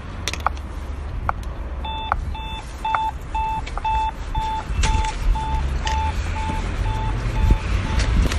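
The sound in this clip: Beeping of a pedestrian traffic light signal at a crossing on Danziger Straße: many short, evenly spaced electronic tones in a steady rhythm, starting about two seconds in, over continuous low traffic rumble.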